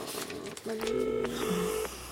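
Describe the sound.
A telephone ringback tone plays while a call waits for an answer: one steady, mid-pitched ring of a little over a second that starts and stops abruptly over low background noise.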